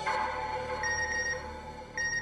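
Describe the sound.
A phone rings with an incoming message: a bright, steady electronic ringtone that holds its tones throughout, with higher notes coming in partway through and again near the end.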